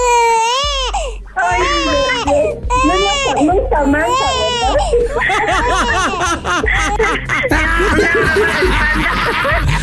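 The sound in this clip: A baby girl cries loudly in repeated wailing bursts that rise and fall in pitch, continuing throughout with other voices mixed in.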